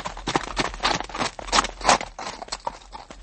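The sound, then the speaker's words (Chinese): Horse hooves clip-clop in a quick, uneven rhythm: many sharp, moderately loud hoofbeats following closely on one another, with no talk over them. “你们听啊，我听见后面有马蹄声，哎，是不是啊？”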